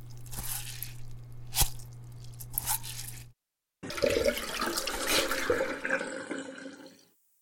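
Something being lightly rinsed in water: wet sloshing and squishing with drips, a brief silent break, then more swirling, splashing water that fades away.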